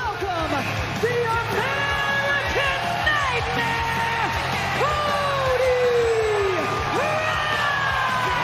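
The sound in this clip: Cody Rhodes' wrestling entrance theme plays while a crowd yells and sings along in long, sustained chanted notes over a continuous noisy backdrop.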